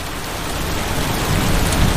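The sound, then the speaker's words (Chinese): Steady rain falling, a dense, even hiss of drops that swells slightly louder toward the end, with no voices. “终于开始下雨”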